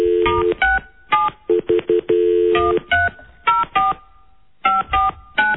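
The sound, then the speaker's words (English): Telephone keypad tones as a phone number is dialed: a quick, irregular series of short, bright electronic beeps with brief gaps between them, with no talking. “I'll dial it up. All right, we're going to call this guy right now.”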